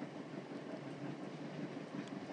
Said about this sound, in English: I'm not sure that I would experience this kind of quiet on a train in all parts of the country.